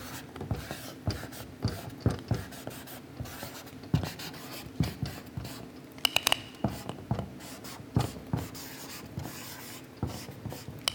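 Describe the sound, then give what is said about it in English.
A pen draws a heart on a board with many short, scratchy strokes that squeak and rasp in an irregular rhythm. The strokes are moderately loud, with no talking. “Because I'm a girl, I'm going to draw a heart because that's what I do.”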